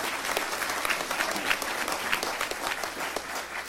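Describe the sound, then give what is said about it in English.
Audience applause: dense, steady clapping from a crowd that runs the whole time at a moderate level. No single voice stands out. “we ought to give all of them a round of applause.”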